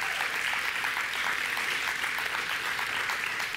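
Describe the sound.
Audience applause for hardworking staff, a dense, even patter of many hands clapping that holds steady at full loudness for the whole stretch, with no voices standing out.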